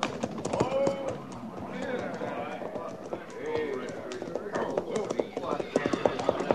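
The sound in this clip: Horse hooves of a rider approaching, a steady, rapid clip-clop of a running horse that continues under people talking.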